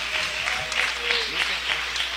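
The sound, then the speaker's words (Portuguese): An audience at a Portuguese-language church service applauds for Jesus and newly welcomed members with a steady, even clapping that runs throughout, while a voice talks over it. “Palmas para Jesus, irmãos.”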